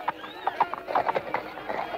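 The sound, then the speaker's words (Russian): A horse stamps and shifts on its hooves in a Cossack village setting. Many quick, uneven clip-clop beats sound alone at low volume. “Что лошадью топчешься-то?”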